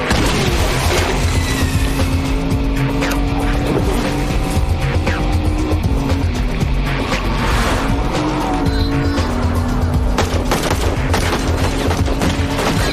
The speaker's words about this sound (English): Shotgun.